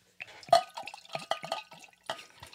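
Water pours into a glass in short, faint splashes and trickles, coming in irregular bursts.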